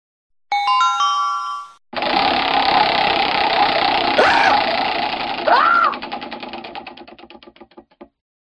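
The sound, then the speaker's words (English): A prize wheel spun during a conversational question game: a few bright chime notes, then a long whirring rattle of rapid ticks that gradually space out, slow and fade as the wheel comes to rest. “let's spin the wheel.”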